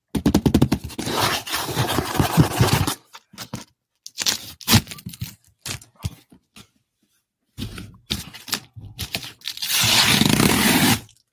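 Sellotape tearing off a box by hand: loud, rough ripping and scraping bursts, a long stretch at first, then a few short, broken tears, and a final sustained rip.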